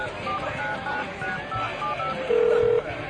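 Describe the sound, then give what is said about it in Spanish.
Mobile phone number being dialed: a few short keypad beeps, then a longer, louder steady tone, all over a busy, noisy background. “Está, lo voy a llamar al celular.”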